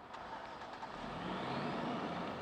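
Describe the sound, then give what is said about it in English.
Trucks drive into a Louisiana sugarcane cooperative on a wet, foggy harvest morning, a steady engine rumble that swells slightly louder through the short clip, with no talk. “On a wet and foggy morning, 90 days into harvest, the flow of trucks into the Louisiana Sugarcane Cooperative is constant.”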